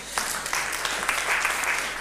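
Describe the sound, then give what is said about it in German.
Applause from a church audience during a service, welcoming a visiting family: a steady, dense wash of many hands clapping at once, loud and sustained throughout without a break. “Ist doch gut, wir geben einen Applaus.”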